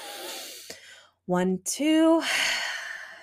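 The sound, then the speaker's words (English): A deep breath drawn in, heard as a soft airy hiss. A brief voiced sound sits in the middle, and another long breathy rush follows. “I sit down at my desk and I take a deep breath in.”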